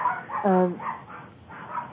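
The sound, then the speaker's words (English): A dog gives a short, sharp bark amid people talking, the bark loud and brief against the quieter speech. “I guess you can hear him barking now.”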